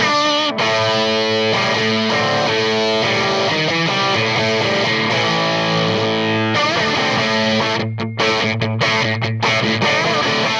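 An electric guitar played through a fuzz pedal gives a thick, buzzing, heavily distorted tone, with sustained chords and repeated notes ringing loudly throughout and a few brief choppy breaks near the end.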